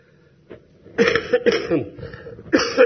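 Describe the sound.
Harsh coughing from a person in an asthma flare-up: a short series of loud, raspy bursts with a throat-clearing edge, separated by brief pauses.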